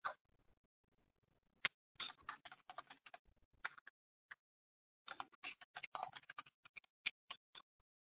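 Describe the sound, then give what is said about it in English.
Typing a username and password on a computer keyboard: faint, irregular key clicks in quick bursts, broken by short pauses and a few isolated single taps. “And let me enter my information. So I already have a username and password set up. And let me actually type this in.”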